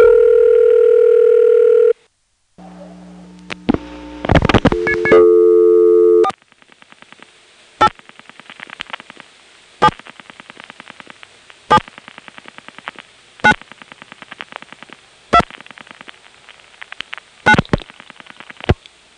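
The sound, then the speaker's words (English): Switching clicks from a Number 2 ESS telephone exchange during a call to Peachtree City, after a tandem cut-through: steady tones and brief tone bursts, then sharp clicks repeating about every two seconds over a faint buzz. “This is a number 2 ESS. You can tell by the distinctive clicks you hear right after the bump of the East Point tandem cut through and before the ring.”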